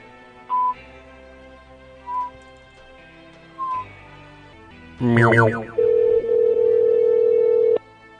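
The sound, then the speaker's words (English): Telephone dialing tones as someone starts making calls: three short, evenly spaced beeps, then a brief warbling burst, then a long, loud steady tone lasting about two seconds. “and then I'm going to start making calls”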